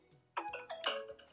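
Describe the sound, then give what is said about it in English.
A mobile phone that was thought to be switched off sounds a short run of bright electronic tones at shifting pitches, quiet throughout. “I thought my phone was off. It's like, why is it making noise?”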